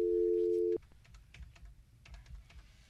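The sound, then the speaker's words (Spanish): Telephone dialing: a steady dial tone sounds for under a second, then cuts off. A few faint, scattered key clicks follow. “¿Tú más estás marcando o yo estoy marcando?”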